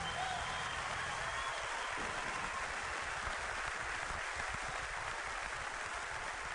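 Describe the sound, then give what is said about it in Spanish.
An audience at an evening show applauds in dense, continuous clapping that holds at an even, moderate level for the whole stretch. “aplauso para Abel, más fuerte.”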